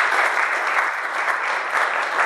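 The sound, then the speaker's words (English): Audience applause at a gathering with hymn singing, a full, steady patter of many hands clapping at an even level from start to finish, with no voices over it. “Right, well, let's just give him a applause.”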